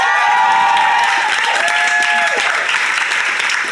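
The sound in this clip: Studio audience applause welcoming a guest onto a comedy panel show, a loud, sustained roar of clapping mixed with cheers and whoops that holds steady throughout.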